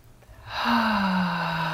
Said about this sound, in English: let's take a couple nice deep breaths in through the nose and out through the mouth. Okay, nice deep breaths in your belly